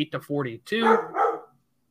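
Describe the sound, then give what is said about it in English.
A dog barks a few times in quick succession, with short, loud, tonal yaps that stop abruptly, leaving silence. “My dog's barking.”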